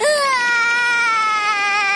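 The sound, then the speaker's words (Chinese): A voice imitates a cartoon crocodile character crying sadly, giving one loud, drawn-out wail with a trembling, wavering pitch that carries through the whole moment. “鳄鱼米米越想越难过，伤心的哭了起来。”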